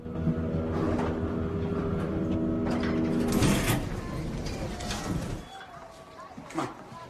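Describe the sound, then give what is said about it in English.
Elevator moving with people and a shopping cart inside: a steady low mechanical hum drones through the first half, then gives way to clattering mechanism sounds while voices talk. “Nathaniel and Lopez ride in an elevator with the shopping cart.”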